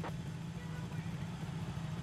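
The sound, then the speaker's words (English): In a racing video game, a motorcycle engine drones steadily at a low pitch, faint and continuous without clear revving. “This is not how a motorcycle would steer. It doesn't even make sense.”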